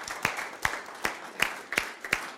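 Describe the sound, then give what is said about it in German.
Church audience clapping together in time during a German-language sermon, with six sharp, evenly spaced claps at a brisk, steady pace. “Kann man klatschen? Preisen Herrn.”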